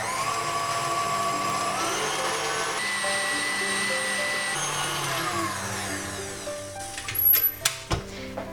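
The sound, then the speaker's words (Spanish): An electric mixer beating eggs with added sugar gives a steady, loud motor whine whose pitch shifts in steps, ending with a few uneven knocks and rattles. “Añado el azúcar y empiezo a batir.”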